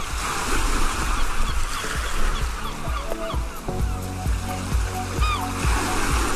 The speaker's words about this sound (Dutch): Ja, dat klinkt best als vakantie, strand, zee, zon.